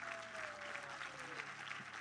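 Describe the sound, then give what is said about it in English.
A church audience applauds guests at a morning service, with dense, steady hand claps filling the brief moment at an even level. “Let's give our guests a hand clap this morning.”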